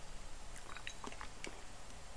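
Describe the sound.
Someone takes small sips of water, heard as faint wet mouth clicks and soft slurps over a steady background hiss.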